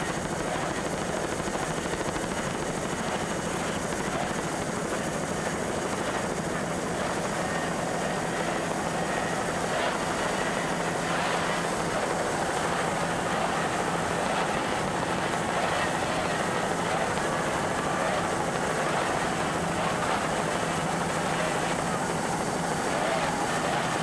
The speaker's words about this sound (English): Nice throttling job by Todd DeRiba with those two 200-horsepower Mercury outboards.